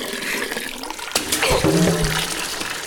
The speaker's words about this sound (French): Comme un rideau d'eau. Un rideau d'eau solide.